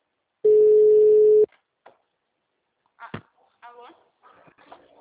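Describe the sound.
A telephone tone sounds after a dropped phone call: one loud, steady, single-pitched beep lasting about a second. It stops abruptly, and brief, faint voice fragments follow.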